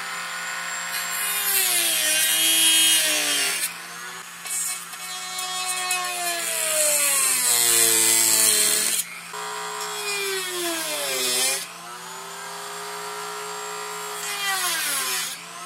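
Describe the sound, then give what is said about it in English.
A rotary tool fitted with a cutoff wheel made for plastic whines as it cuts slots for a LAN connector in plastic. Several long, loud passes are broken by brief pauses, and the pitch sags and recovers as the wheel bites. “I think the Dremel might be the best tool to cut out this plastic, so I'll use that, and we'll cut out the slots here for the LAN connector. I'm going to use a cutoff wheel that's designed for cutting plastic.”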